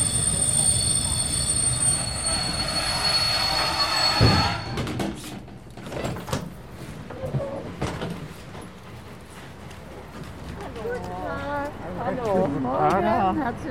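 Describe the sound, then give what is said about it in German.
A train pulling into Chemnitz main station, where it terminates: its wheels squeal in loud, high, sustained tones for about four seconds, then give way to rumbling and a few knocks as it slows, with a voice speaking near the end. “wir erreichen jetzt Chemnitz Hauptbahnhof. Dieser Zug endet dort.”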